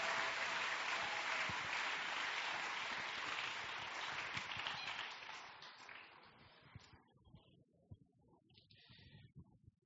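An audience applauds the Lord during a French and Swahili church sermon. The dense, faint clapping thins out after about six seconds into a few scattered claps.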